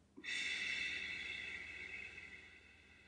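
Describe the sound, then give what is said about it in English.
A single slow, relaxed belly breath, heard as a soft, airy hiss that starts abruptly and then fades away gradually over about three seconds, with no voices around it. “on the belly, just really relaxing breath. Don't try and inflate it too much, but count on the way in. So even if this is like 3 minutes. So, for example, belly breathing, three in, six out.”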